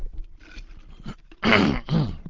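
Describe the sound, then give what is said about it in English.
Throat clearing from someone with a frog in the throat: soft low grunts, then two loud, harsh rasping hacks in quick succession. “Sorry, I've got a little bit of a frog in the throat.”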